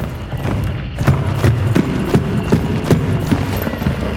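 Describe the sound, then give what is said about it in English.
Quiet footsteps inside a building in a video game form a steady series of soft, dull thuds at an even walking pace, with no talk over them. “And this is quiet walking in a building, just to kind of give you a comparison point.”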